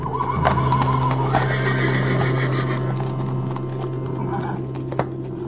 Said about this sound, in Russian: Вдруг учуяли кони что-то, уши навострили и заржали.